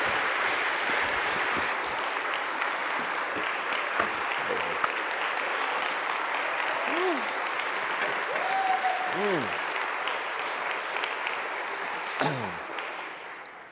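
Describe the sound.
Audience applause welcomes a guest speaker with sustained, dense clapping over many seconds. A few rising whoops and voices break through partway, and the sound tapers off at the end.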